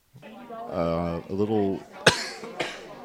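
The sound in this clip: Coughing from cigarette smoke in the throat: a man's voice is followed by two sharp, rough cough bursts, the first louder than the second.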